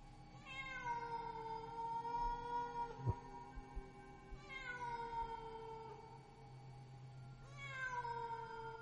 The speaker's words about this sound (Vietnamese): Vừa đặt chân xuống bếp, thì tiếng mèo kêu thảm thiết lại vang lên.